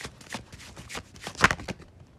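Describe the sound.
Tarot cards are shuffled in a soft run of quick, papery flicks and slaps, with one sharper snap near the end.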